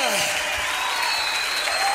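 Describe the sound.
Audience applause at a church worship service: dense, steady clapping fills the whole stretch without pause, with a voice heard over it.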